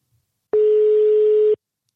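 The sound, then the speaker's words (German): A single steady ringback tone of an outgoing phone call, one mid-pitched beep lasting about a second between stretches of silence. “Es tutet.”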